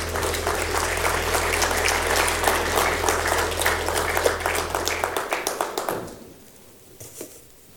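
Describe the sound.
Congregation applause welcoming the lead pastor of Fresno First Baptist Church to the pulpit at a Sunday morning service: dense, steady clapping over a low sustained tone for about six seconds, then quickly thinning to a few scattered claps.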